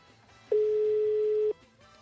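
A single steady telephone tone from an unanswered call sounds at one even mid pitch for about a second, clear above faint background noise.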